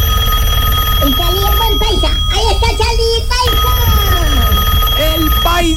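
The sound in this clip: A telephone rings steadily throughout while several people talk loudly over it.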